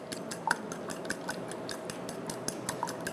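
A fork gently beats ingredients in a bowl, giving a quick run of light, regular clicks and taps that stay fairly faint throughout.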